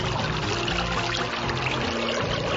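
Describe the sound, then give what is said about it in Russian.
A babbling spring stream gives a loud, steady rush and trickle of flowing water that runs unbroken from start to finish. “Бежит ручеек, между деревьев и кустов змейкой вьется, звенит и журчит”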